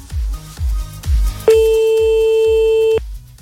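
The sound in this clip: A steady telephone ringing tone sounds once for about a second and a half as a call to a listener is placed, over a regular series of low, thumping beats.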